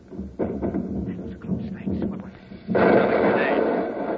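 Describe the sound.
Gunfire from a ship's gun turret in a science-fiction drama: heavy booming blasts, a short burst early on and then a loud, sustained roaring barrage.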